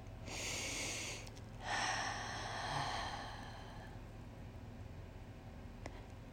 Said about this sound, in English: So take your first deep breath.